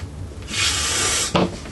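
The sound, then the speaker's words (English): A wooden table kicked during a tabletop game gives a rough scraping rub that lasts under a second, then one sharp wooden knock, with no talking. “Kicking the table. Oh, yeah. My bad.”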